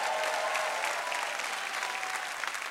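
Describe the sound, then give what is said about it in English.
Church audience applauding and making noise, a dense, steady wash of clapping that holds at an even, fairly loud level from start to finish. “So everybody who wants to get unstuck from your own personal preference, make a little noise right now.”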